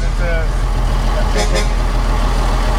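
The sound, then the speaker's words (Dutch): A convoy of vehicles driving behind, heard as a steady, loud low engine rumble with truck-like drone that runs evenly throughout, while people talk over it. “Kijk, hier staat de kolonne die achter ons aankomt.”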